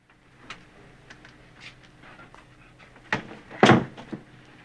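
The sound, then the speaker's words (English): A door opening in a quiet room, a few faint clicks and taps followed near the end by a sharper thud and a louder clunk. “when suddenly the door opens”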